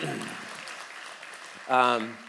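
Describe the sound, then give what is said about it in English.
An audience claps to welcome a couple invited up to the stage, a soft, fading patter of applause, then a brief voice speaking near the end. “Come on up, guys. And yeah, you can clap for them if you want.”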